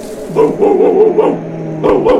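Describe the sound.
Dog barking in a few bursts of short, high yapping barks, loud and with no voices over them, with a steady low hum underneath.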